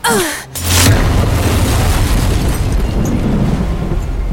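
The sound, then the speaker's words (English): Explosion sound effect of a magical object bursting into plasma and light: a short falling whistle, a brief hush, then a loud, deep boom that swells into a long, sustained rumbling roar. “The hierogram explodes in a mass of color and light. The energy burst sends a plume of bright plasma exploding into the darkness of the star-spattered night.”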